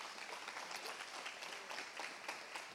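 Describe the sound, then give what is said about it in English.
An audience applauds as a guest named Derek is welcomed up on stage, with faint, steady, even clapping throughout. “So would you guys put your hands together and welcome Derek to come up and talk with me today.”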